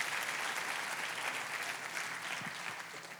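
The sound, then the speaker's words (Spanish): Applause from a church audience during a Spanish-language sermon, a dense, steady wash of clapping that holds evenly for the whole clip with no talk over it. “A darle un aplauso a Jesús. Let's give the Lord a hand.”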